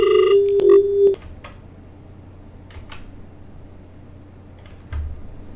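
An incoming call to a radio call-in show rings once as a short electronic telephone tone lasting about a second. Faint low hiss follows, with no talk.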